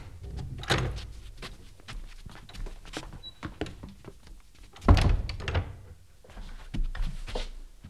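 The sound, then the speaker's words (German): A door is shut behind arriving visitors, marked by a solid low thump near the middle amid softer shuffling, knocks and handling noises. “Na, du kommt herein und macht die Tür hinter euch zu.”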